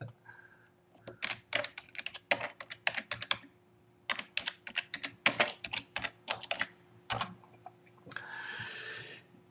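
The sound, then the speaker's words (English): Typing on a computer keyboard: rapid, irregular clusters of light clicks with a short pause midway, over a faint low hum. “I'm a man, so it's hard to type and talk at the same time.”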